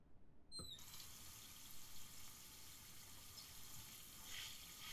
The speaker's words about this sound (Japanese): それじゃあ軽く流していくね。